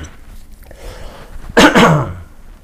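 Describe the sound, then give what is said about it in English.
Throat clearing by an adult man in the middle of speaking: one loud, rough, harsh burst after a quiet stretch, fading out quickly. “Sorry, my throat.”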